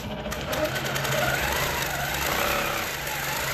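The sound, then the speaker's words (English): A quilting machine whirs steadily in a country cottage in the small town of Nabiac, a continuous even mechanical hum with a faint rapid stitching pulse. “In a country cottage in the small town of Nabiak, a quilting machine whirs to life.”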